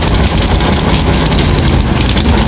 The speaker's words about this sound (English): The engines come to life on the pit lane as the Naval Hornets go blasting by overhead.